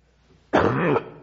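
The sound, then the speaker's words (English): A single harsh cough, about half a second long, bursts out sharply after near-silence, rough and loud, from someone who starts coughing while giving a Bible talk. “Did good all morning. Now that I start talking, start coughing.”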